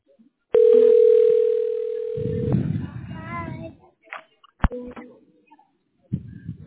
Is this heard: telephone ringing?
yes